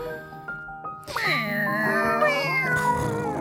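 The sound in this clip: Cat meows set to music: after a quieter, sparse opening, sustained gliding tones with bright harmonics rise and bend continuously, loud and steady to the end.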